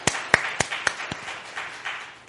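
Applause from a church audience during a worship service: five sharp, evenly spaced claps ring out first, then fade into softer, scattered clapping.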